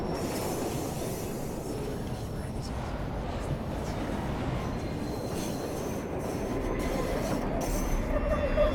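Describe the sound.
A train pulls away, heard from the carriage as a continuous low rumble with rattling wheel noise at a steady, moderate level.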